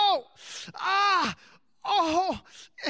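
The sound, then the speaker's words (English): A man lying down imitates pained groaning: a few drawn-out voiced moans with wavering, bending pitch, separated by short pauses. “I was laying down, and I'm groaning. I'm like,”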